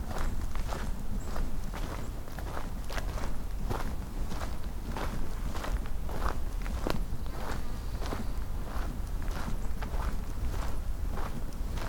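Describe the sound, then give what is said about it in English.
Footsteps of someone walking outdoors on a grouse hunt, many steady, evenly spaced steps crunching along without pause for the whole stretch, with no talking over them. “Looks like I have to walk a little further to get to the grouse.”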